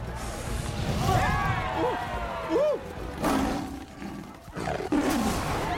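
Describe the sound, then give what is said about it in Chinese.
A lion roars in a scene from an animated film, giving a few loud, drawn-out bellowing calls that rise and fall, with voices heard around them. “是狮子。”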